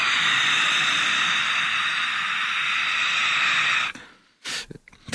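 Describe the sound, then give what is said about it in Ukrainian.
A voice imitates the heavy breathing of a beast-man creature that senses the world by smell and sight: one long, loud, hissing breath holds steady, then breaks off into a few short, sharp bursts of breath. “я грав навіть людину-звіра, який відчуває світ нюхом, зором, і він дихав так.”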